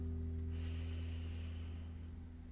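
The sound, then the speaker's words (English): Someone breathing in during a breathing exercise, one soft, smooth inhalation of about a second, faint over a steady low humming drone. “Inhale and exhale. Inhale”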